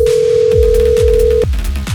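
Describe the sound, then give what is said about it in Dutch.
A steady telephone tone sounds while a contestant is being called, held for about a second and a half before cutting off, over a loud music bed with regular thumping beats. “Ik bel de laatste kandidaat op. Het zou wel een heel slecht moment zijn om nu niet op te nemen.”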